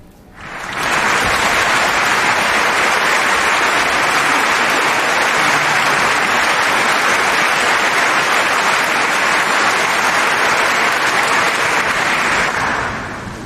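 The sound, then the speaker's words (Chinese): Long, continuous applause from an audience at a tango music performance, dense and even, holding at a steady loud level for about twelve seconds before easing off at the end. “一段连绵不绝的掌声”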